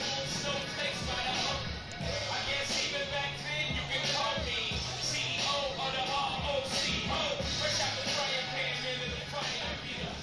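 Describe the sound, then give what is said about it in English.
Wind buffets the crowd microphone at a baseball game, a steady low rumbling whoosh that fills the whole stretch, with voices talking faintly under it. “You can hear that wind on the crowd mic.”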